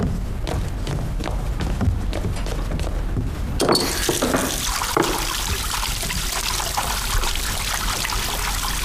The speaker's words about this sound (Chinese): 洗手，洗手，洗手。